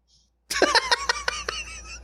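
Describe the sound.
A quick fit of coughing from a tickle in the throat: a rapid string of short, sharp, breathy bursts. The bursts are loud at first and thin out toward the end, with no clear speech.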